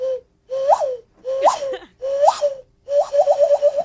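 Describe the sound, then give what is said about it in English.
A person vocally imitates a quail call: five short, whistled, wavering cries in quick succession, the last breaking into a rapid warbling trill, loud and alone. “you'll hear a quail noise outside your bedroom window.”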